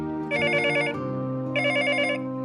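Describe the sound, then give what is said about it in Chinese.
A telephone rings with an incoming call, heard while riding a bus: two warbling, trilling ring bursts sound over a steady low hum, with a short pause between them. “车子快要抵达的时候，在附近工作的妻子又来了电话。”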